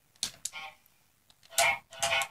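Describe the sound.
Goose honking in a two-player video game set in a forest: a few short, harsh, nasal honks with a pause between them, fairly faint and with no talk.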